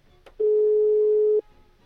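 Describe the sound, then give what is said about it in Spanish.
A telephone ringing tone sounds as a call connects: one steady, mid-pitched beep about a second long, loud and alone, with a brief click just before it. “vamos a esperar a que se enlace la llamada y esperamos a que nos contesten.”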